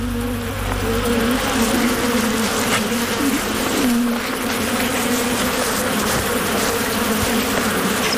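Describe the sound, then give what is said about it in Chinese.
A swarm of bees attacking a honey badger as it breaks into their hive, a loud, dense, continuous drone of buzzing that holds steady throughout with no talk. “面对蜂群的攻击，蜜獾丝毫没有退缩。”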